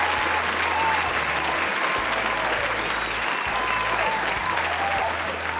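Studio audience applauding and cheering for a first guest from Ghana: a dense, steady wash of clapping and cheers that stays loud for the whole stretch.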